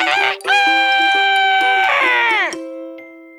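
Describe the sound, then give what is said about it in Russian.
A rooster crows once during a folk-tale narration: a single long, loud, sustained harmonic call that drops in pitch at the end, with a steady low tone running underneath. “Петушок вскочил живехонький и во все горло запел.”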